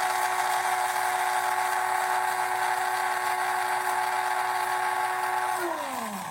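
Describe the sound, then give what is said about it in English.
A coffee grinder grinds seeds with a loud, steady, high motor whine that holds for several seconds, then drops in pitch at the end as the motor winds down. “coffee grinder and we're going to grind it. We're going to grind it for maybe 10 or 15 seconds.”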